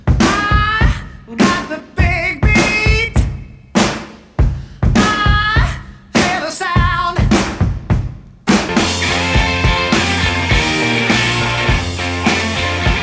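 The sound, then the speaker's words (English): A heavily sampled rock drum beat plays alone: hard kick and snare hits in a steady, punchy pattern with ringing cymbals. After about eight seconds a full rock band with guitars and bass joins in, loud and continuous. “take a listen to the drum beat because you hear it in enough songs to have put it”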